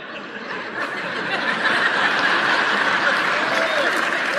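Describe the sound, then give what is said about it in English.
Audience clapping during a talk on a Bible verse: a dense, steady wash of applause that swells slightly after the opening second and then holds at a fairly loud level to the end. “I'm not sure who's clapping on that. If there's a guy clapping, you're in trouble.”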